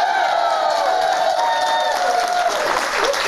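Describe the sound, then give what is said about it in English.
A New York City studio audience cheering and applauding, with whoops and shouts over continuous loud clapping. “for tickets to be in our studio audience, all you got to do is scan the QR code on the bottom right-hand corner of the screen. You can come hang out in New York City with these maniacs right here. Listen to them.”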